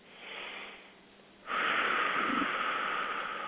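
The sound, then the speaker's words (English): Slow deep breathing during a guided breathing exercise: a softer airy breath first, then a longer, louder, steady rush of air after a short pause, with no talk. “Can you take 2 nice deep breaths with me, please?”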